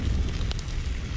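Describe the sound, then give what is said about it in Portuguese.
Meat cooking on a parrilla grill, a faint, low roaring rumble of fire with a steady hiss and a couple of sharp crackles midway. “Esse é o som da parrilha do pobre Juan”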